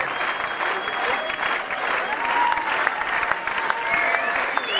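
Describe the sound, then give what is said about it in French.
Applause from the Marseille audience on the second night of the Marseille Jazz des Cinq Continents festival, calling the musicians back: loud, sustained clapping that swells slightly partway through and holds to the end. “vous entendez. ce public marseillais pour cette deuxième soirée du, du, festival Marseille Jazz des cinq continents et les musiciens reviennent déjà.”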